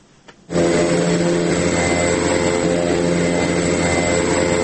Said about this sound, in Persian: اولین پرواز تجارتی در مسیر بامیان الی کابل آغاز شد. این پرواز با نشست یک بال طیاره آنتونوف در میدان هوایی بامیان توسط شرکت هوایی افق شرق یا ایست هوریزون